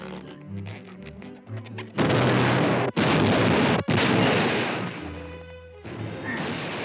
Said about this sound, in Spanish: Ese gordo sí que explota fácilmente.